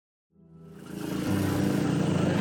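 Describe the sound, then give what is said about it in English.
A tuk-tuk motor buzzes to life and grows steadily louder, a throbbing engine drone during a ride through a red light district in Southeast Asia. “I'm riding in a tuk-tuk in the red light district here in Southeast Asia.”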